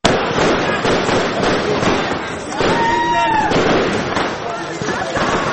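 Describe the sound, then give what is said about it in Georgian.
Fireworks crackle and bang at a street celebration after an Olympic gold win, a loud, dense, continuous barrage of rapid pops with no pauses. “ფეიერვერკი, ქუჩებში გამოსული მანქანები, საყვირები, ხმაური და მილოცვებით ურთიერთ გადაძახილი.”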